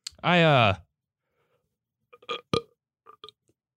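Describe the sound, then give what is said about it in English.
A single loud, voiced burp lasting about half a second, with a rough, wavering pitch, followed by a few faint clicks. “I thought I had a burp coming up. There we go.”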